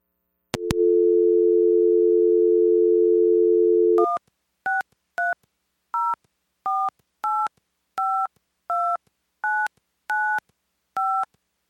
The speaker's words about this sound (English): So without further ado, let me dial in and you can just listen.